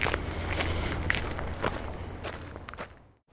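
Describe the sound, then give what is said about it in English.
Footsteps walk up a wide garden path in the grounds of Gorse Hall, a steady rhythm of crunching steps that breaks off briefly near the end. “So I'm walking up the wide path.”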